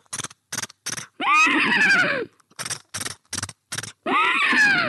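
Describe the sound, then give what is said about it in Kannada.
Horse galloping and neighing: short clusters of thudding hoofbeats alternate with two loud, long whinnies that drop in pitch. “ಈಗ ಕುದುರೆ ಓಡುವ ಮತ್ತು ಕೆನೆಯುವ ಧ್ವನಿ”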